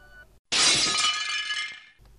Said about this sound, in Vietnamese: Cả chiếc ghế như vỡ tan